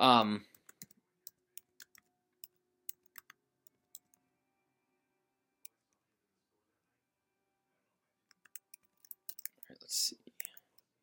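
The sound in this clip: Someone taps keys on a computer keyboard: faint, scattered clicks, a long quiet stretch, then a quicker flurry of keystrokes. A voice is heard briefly at the start and near the end.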